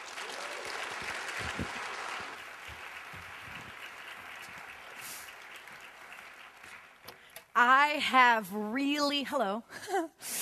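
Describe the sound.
Audience applause welcomes a woman speaker to the stage, a steady wash of clapping that lasts several seconds before fading as her voice begins speaking over the last few seconds.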